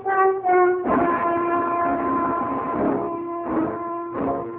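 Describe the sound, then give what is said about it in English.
Subway train noise: a steady, horn-like tonal whine with stacked harmonics over a continuous low rumble, loud throughout, with brief dips and swells near the start and toward the end. “I make it to the subway and jockey my way to Laura Chandler's apartment.”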